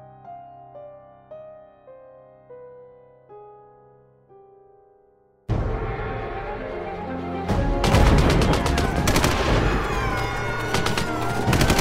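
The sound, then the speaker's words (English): Heavy .50 caliber machine gun fire at a checkpoint erupts after a run of soft, separate tonal notes, then builds into loud, rapid, densely packed shots with booming impacts. “Keep firing with the 50 cals! Don't let them get past the checkpoint!”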